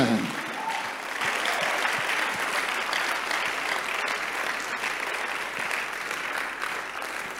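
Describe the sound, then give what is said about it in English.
An audience applauds during a church sermon, a dense, steady wash of clapping that holds at an even loudness for the whole stretch. “It's a good place to clap for Jesus.”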